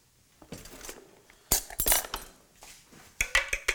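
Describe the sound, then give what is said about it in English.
Two eggs being beaten in a bowl for matzo brei: irregular bright clinks and taps of utensil against the bowl, coming in short bursts with quiet gaps between them. “You beat the eggs.”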